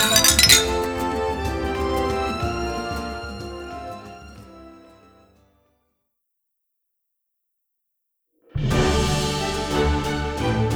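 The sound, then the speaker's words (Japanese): Glasses clink in a toast: a dense burst of bright, ringing clinks at the start thins out and fades over about five seconds, then silence, then another dense burst of clinking. “みんなの出会いと再会を祝して乾杯。”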